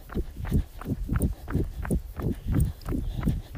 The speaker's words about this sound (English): Get my watch going. Heading out for a bit of a run. I thought I'd take you with me.